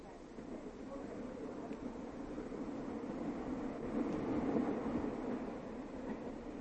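A train arriving at its terminal station in Leningrad, in a 1967 radio play, gives off a continuous rumbling clatter of rail wheels. It builds gradually to a peak in the middle, then eases slightly.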